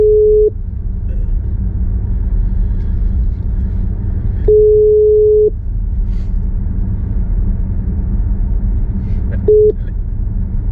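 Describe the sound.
An outgoing telephone call rings with a steady mid-pitched ringback tone that recurs three times about five seconds apart, the first and last cut short, over a constant low rumble.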